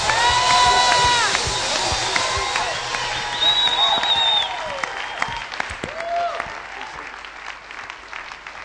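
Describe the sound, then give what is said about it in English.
A Hawke's Bay audience applauds and cheers to welcome guests. Loud clapping mixes with shouts and whistle-like cries, then gradually thins and fades toward the end. “And Hawke's Bay, why don't we give them a fantastic welcome?”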